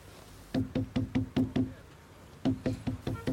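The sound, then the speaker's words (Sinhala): Knuckles rap on an office door in two crisp bursts, six evenly spaced knocks, a short pause, then five more, each hollow and sharp against near silence. “Office කාමරේ දොර යාන්තමට ඇරිලා. එන්න මම තට්ටු කරන්න.”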